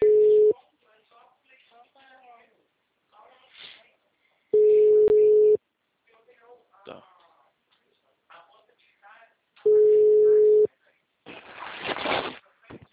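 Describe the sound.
Three long, steady mid-pitched ringback tones of an outgoing WhatsApp call sound at even intervals, with people talking between them and a burst of noise near the end.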